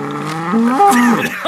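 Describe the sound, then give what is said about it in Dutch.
A young bull mooing: one short, fairly loud bellow that rises and wavers in pitch through about a second and a half, with no voices. “Ik wijs naar een jonge stier die kwaad te vliegen van zijn kop schudt.”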